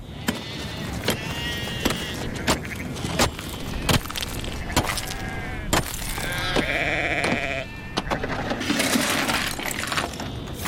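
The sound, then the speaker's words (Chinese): Sunit sheep bleating as a flock on snow-covered winter grassland in February, several wavering bleats overlapping, with a string of sharp clicking taps recurring throughout. “乌日汗家里有300头羊，他要确保羊群安全度过寒冬。当地特产苏尼特羊，3万亩牧场，羊群自由觅食，”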